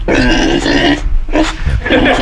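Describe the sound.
Loud, raspy pig grunts and snorts come in a few bursts separated by brief pauses.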